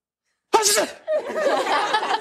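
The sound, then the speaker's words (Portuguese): A person performs a fake sneeze: one sharp, loud burst after a short silence, followed by a continuing stretch of voiced sound. “Ah, porque é um espirro falso, não... Não é crocante o suficiente.”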